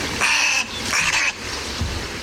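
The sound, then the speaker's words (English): Snowy egrets call harshly while chasing each other through trees at a nesting colony of wading birds in Marin County, California. Two loud, raspy squawks come in quick succession, followed by quieter rustling and a soft low thump. “These snowy egrets are chasing each other through the trees, creating quite a stir.”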